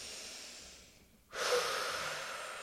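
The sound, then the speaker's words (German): A person breathes deeply while kneeling with eyes closed. A soft breath fades out, and after a brief pause a louder, airy, hissing breath swells and slowly tapers off. “Augen zu machen und dann einfach zuerst mal tief ein- und ausschnaufen, ganz normal so.”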